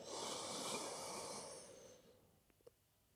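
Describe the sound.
A slow, deep inhalation during a guided breathing exercise, a soft, airy hiss that holds steady, then fades away. A couple of faint clicks follow in near silence.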